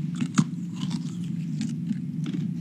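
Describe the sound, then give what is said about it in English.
Someone eats a taste of trehalose sugar: a sharp crunching bite comes early, followed by soft, irregular chewing and mouth noises. The sounds are faint, with no talk. “And he even gave me a taste of the trehalose.”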